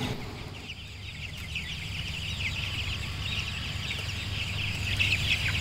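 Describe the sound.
Chickens on a poultry farm cluck and peep together in a faint, dense, continuous chatter of overlapping high calls over a steady low hum.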